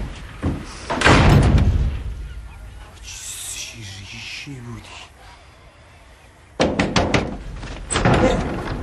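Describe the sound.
A door is slammed shut with several loud, sharp bangs near the start and again toward the end. Voices talk in the quieter stretch between the slams.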